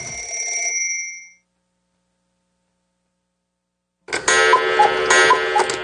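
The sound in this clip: A radio station time signal marks seven o'clock on a Chinese-language FM station in Canada: a steady, high electronic tone lasting under a second, then near-silence for nearly three seconds, then a bright, busy burst of chime-like ringing.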